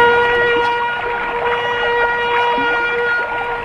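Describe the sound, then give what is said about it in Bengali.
A police motor launch on a river gives off a steady droning engine hum with sustained tonal overtones, fairly loud and unbroken for the whole stretch. “পুলিশের launch নাকি? আরে হ, এদিকেই আছে”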